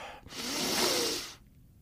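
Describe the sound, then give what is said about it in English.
A deep inhale through the nose during a meditation exercise. It sounds as a single airy, hissing draw of breath that swells and then cuts off after about a second, heard alone. “Take a deep breath into the nose.”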